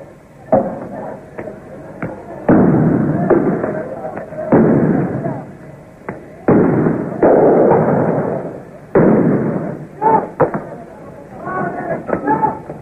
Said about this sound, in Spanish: Se escuchan también algunos disparos de armas de fuego.